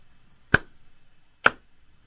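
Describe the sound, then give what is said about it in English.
Two slow, sharp hand claps about a second apart, made by a person imitating a muted golf clap. Each clap is brief and isolated against near silence. “The crowd, when Leah Thompson was introduced at the beginning of that race, gave a muted, kind of like a golf clap. It was almost silence. It was just this,”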